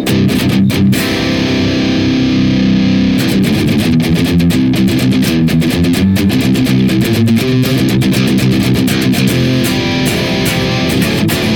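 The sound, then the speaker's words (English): Heavy distorted electric guitar through a Neural DSP Archetype Gojira rig with a stereo Greenback cabinet impulse response, playing a loud, continuous chugging riff with dense, gritty tone and a brief break near the start. “The exact same impulse response in stereo going through our neural DSP archetype Gojira sounds like this.”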